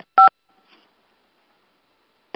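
Telephone keypad tones sound as conference callers are taken off mute: a loud, short steady dual-pitched beep, then quiet, then a second brief tone cut off at the end.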